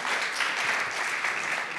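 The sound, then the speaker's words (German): A church audience applauding God during a service: a steady, even wash of many hands clapping, moderately loud and unbroken for about two seconds. “Ja, da können wir Gott mal einen riesen Applaus zu geben”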